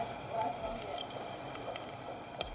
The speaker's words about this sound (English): God, that cooking sounds so good.